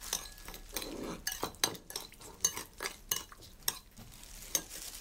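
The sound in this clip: A spoon stirs ingredients in a container with many light clinks and scraping strokes in an uneven rhythm.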